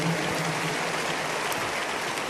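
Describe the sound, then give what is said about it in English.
Audience applause, an even, dense patter of clapping that holds steady throughout without a break. “If you are clapping, make it bigger, better.”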